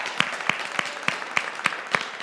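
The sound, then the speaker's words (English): Clapping in recognition of a church's partnership: eight sharp, evenly spaced claps at a steady, brisk pace over a continuous dense background. “I'm not clapping for myself. I'm clapping for you because your partnership with us enabled us to create this.”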